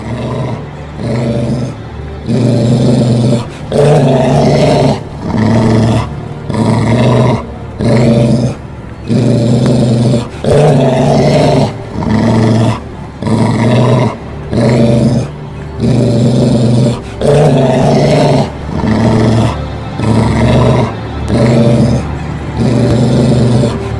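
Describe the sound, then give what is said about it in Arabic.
Deep dog growling comes in many loud, rhythmic bursts of low rumbling, each lasting about a second and separated by short pauses, continuing steadily with no talk. “البنت بدأ يخرج منها صوت هو صوت الكلاب بالظبط.”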